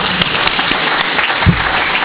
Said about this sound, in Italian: Allora lo ringraziamo con un applauso.